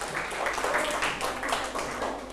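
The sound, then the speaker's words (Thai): Classroom students applauding a group of classmates, a soft, even patter of many hands clapping that holds steady for a couple of seconds. “ปรบมือให้กลุ่ม5หน่อยครับ”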